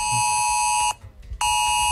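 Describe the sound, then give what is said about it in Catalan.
An ES-Alert emergency phone alert tone sent during a river flood danger: a loud, harsh, buzzing tone rich in piercing harmonics, sounding in two long blasts separated by a short pause. “Aquest missatge, l'ES Alert, ha tornat a sonar fa tot just una hora.”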